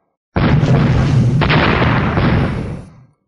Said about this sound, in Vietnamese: Một tiếng vang thật lớn, một cổ sóng khí cuồng bạo vô cùng như bài sơn đảo hải áp tới bốn phương